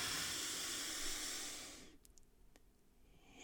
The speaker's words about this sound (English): Our jaw loosen and breathe in through the nose.